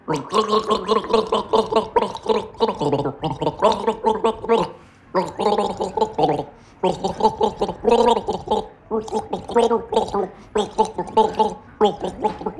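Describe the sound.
A person gargles a song through a sip of liquid, the bubbling voice carrying a melody in rhythmic phrases with brief pauses between them, loud and up close.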